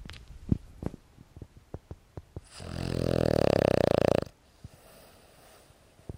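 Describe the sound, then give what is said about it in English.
A dog snores close to the microphone. A few soft clicks and sniffs come first, then one long, loud, rasping snore with a buzzing tone, then quieter breathing. “You can hear Rufus snoring again. Let me see if I can get the mic close to him.”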